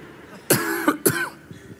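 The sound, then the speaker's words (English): Two harsh coughs in quick succession from someone with nicotine gum stuck in the throat, fairly loud over a quiet background. “Sorry, the Nicorette got stuck in my throat.”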